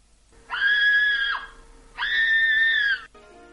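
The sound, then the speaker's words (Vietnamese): A woman screaming in terror: two sustained, high-pitched shrieks of about a second each, separated by a short pause, fairly loud and with no other voices. “Thì cùng lúc đó trong nhà lại nghe thấy một tiếng thét kinh hoàng của Lạc Uyển.”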